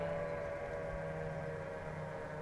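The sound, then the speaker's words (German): A steady, sustained tonal drone with layered harmonics comes from some vehicle moving down in the valley below, holding even and unbroken throughout with no voices. “Irgendein Fahrzeug, das da unten im Tal fährt.”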